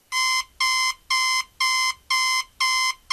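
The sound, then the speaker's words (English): A digital alarm clock rings with six loud, high-pitched electronic beeps in an even, rapid rhythm, each burst short and identical, with nothing else heard. “That's the sound of your alarm clock waking you up an hour earlier than you were expecting today”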